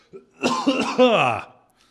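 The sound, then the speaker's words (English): A person coughs: a faint brief catch comes first, then a longer, rough, throaty cough with a strongly voiced, groaning quality that fades out, loud and alone without other talk. “I'm going to cough.”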